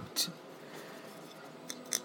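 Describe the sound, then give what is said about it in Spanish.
Light tapping on a model of the Mayan pyramid of Chichen Itza, partly filled rather than hollow, gives a few faint, short clicks spread over two seconds of quiet. “Al lado tengo la pirámide de Chichen Itza.”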